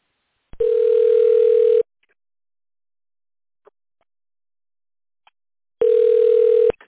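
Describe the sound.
Telephone tone dialing on an automated bank line: two identical steady beeps, each a bit over a second long, separated by several seconds of near silence with a few faint clicks.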